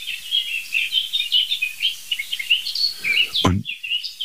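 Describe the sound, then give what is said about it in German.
Bird alarm calls, repeated high, thin chirps going on steadily throughout, fairly soft, with one sudden low thump near the end. “Die jetzt wieder milder gewordenen Alarmrufe sind aber immer noch in der gleichen Ecke.”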